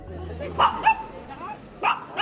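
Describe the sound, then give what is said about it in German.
A dog barks at a monthly market in Solothurn. It gives a few short, sharp yips and barks at moderate loudness, separated by brief pauses, over a low background hum. “Da bellt einer, weil ihm etwas gar nicht passt. Hier und jetzt.”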